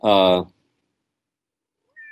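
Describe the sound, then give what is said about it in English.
A domestic cat's meow: one short, tonal cry of about half a second, followed by silence and a faint high tone near the end. “that's my cat.”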